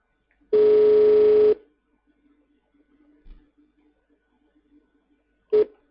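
Telephone ringing tones while a call is being placed: one long, steady beep lasting about a second, a long quiet gap, then the start of a second identical beep.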